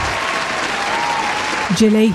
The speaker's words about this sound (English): That selection deserved a round of applause.